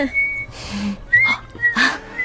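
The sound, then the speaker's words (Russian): A person whistling a song: a few short, high whistled notes in separate phrases, broken by breathy noise bursts. “А что это за песенку вы насвистываете, а?”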